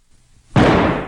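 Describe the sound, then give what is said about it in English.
A single loud revolver gunshot from a Russian roulette trigger pull: a quiet low rumble, then an abrupt, sharp blast that holds a harsh, roaring decay to the end. “Spin cylinder. Cock the gun. Haul the gun to your head and pull the trigger.”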